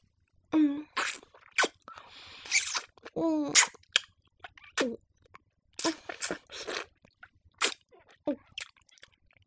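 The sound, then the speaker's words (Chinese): A frozen treat is being eaten with crunching bites. Many short, crisp crunches and wet mouth sounds come in an irregular rhythm and stay fairly faint. “你问什么声音吗？哎呀，人家在吃冷饮了。”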